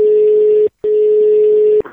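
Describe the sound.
A telephone call is placed for a prank phone call: a steady low line tone sounds, breaks off once briefly, resumes, and is then cut off by a short burst of noise.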